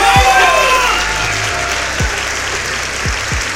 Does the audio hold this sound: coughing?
no

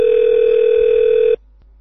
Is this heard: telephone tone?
yes

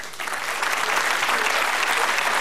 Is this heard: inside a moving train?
no

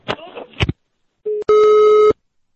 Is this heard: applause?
no

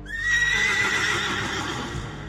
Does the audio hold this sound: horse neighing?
yes

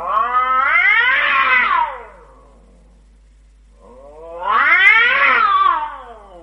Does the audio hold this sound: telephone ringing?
no

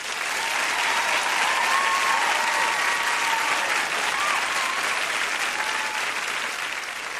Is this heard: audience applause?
yes

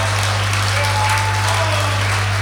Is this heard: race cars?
no

